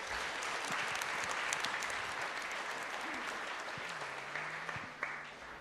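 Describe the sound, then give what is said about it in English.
A church audience applauds to welcome a speaker, with soft, even clapping that holds steady, then tapers off after a brief final burst. “Let's put our hands together. Let's give a huge, warm welcome to Clive.”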